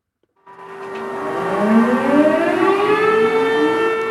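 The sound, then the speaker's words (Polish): Civil defense sirens wail across Poland, where people stop in the street at the hour marking the anniversary of a wartime uprising. After a sudden onset, a loud, sustained tone rises in pitch and then holds over a steady drone, with no voices. “Słyszy pan te syreny? Cała Polska stanęła.”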